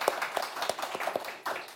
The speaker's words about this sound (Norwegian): Det er applaus, det.